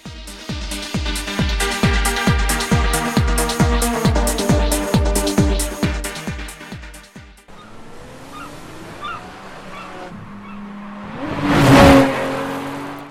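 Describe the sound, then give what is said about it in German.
Racing cars accelerate in a fast arcade racing video game on Xbox 360, PC and PS3. A pounding, evenly spaced beat fills the first half, then an engine whir builds into one loud whooshing pass-by. “Steht ihr auf rasante Rennspiel-Action? Dann könnte Blur, der neue Titel aus dem Hause Activision, genau das Richtige für euch sein.”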